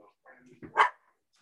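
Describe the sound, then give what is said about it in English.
Pet dogs barking at home: a short, sharp burst of barking lasting under half a second, following a stretch of quieter voice-like sound and ending in silence. “Sorry about that, guys. I have dogs.”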